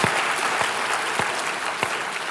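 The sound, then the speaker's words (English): Congregation applauding during a church service, a dense, steady patter of many hands clapping throughout, with a few sharper thumps standing out at regular intervals. “You want to clap? Let's clap, man. That's for the Lord.”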